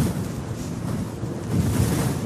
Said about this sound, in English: Without that resistance, the wind just howls across this landscape.